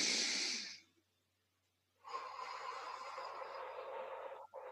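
Deep breaths drawn in during a calming breathing exercise with a hand on the stomach: a short breathy inhale, a silent pause, then a longer, steady inhale, both soft and alone.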